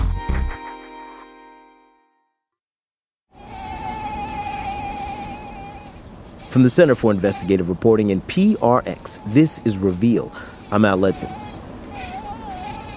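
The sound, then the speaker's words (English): Aedes aegypti mosquitoes carrying Zika virus, taken from standing water at the southern tip of Texas in the Rio Grande Valley, give off a steady, high-pitched whining buzz after a short silence. A man talks over the continuous drone. “The sound you're hearing comes from mosquitoes that carry the Zika virus. They're called Aedes aegypti.”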